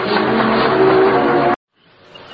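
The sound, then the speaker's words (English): A Formula One Lotus race car engine gives a loud, continuous, high roar that cuts off abruptly partway through, leaving only a faint noise afterward. “Driving a Formula One Lotus needs special training”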